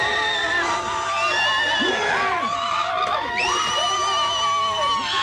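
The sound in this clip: A handful of audience members at an evening show shout on request, a loud, continuous mix of high cheers, whoops and screams from several voices with no break.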